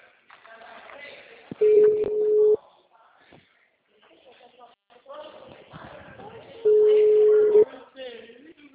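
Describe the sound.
A telephone line tone sounds after a dropped call: two steady, clear tones lasting about a second each, separated by a few seconds of faint murmuring voices and line noise.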